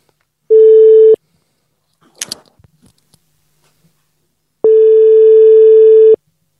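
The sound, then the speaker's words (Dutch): Telephone ringback tone heard while calling someone back: two steady, buzzy mid-low tones separated by a long gap, the first short and the second about one and a half seconds long, with faint rustling and clicks in between. “Zullen we Theo even terugbellen? Ja. Ik ben wel benieuwd. Ja. Even kijken hoor. Kijken of hij nu nog opneemt.”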